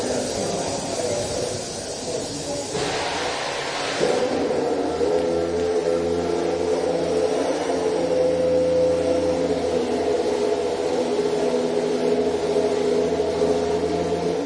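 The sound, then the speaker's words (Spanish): A Honda Formula 1 engine idling after start-up, a steady low buzzing drone with a hissing edge that holds evenly and loudly throughout. “Bueno, pues ahí lo tenéis. Evidentemente es un motor al ralentí. Lo que pasa es que, claro, por lo menos ya arranca.”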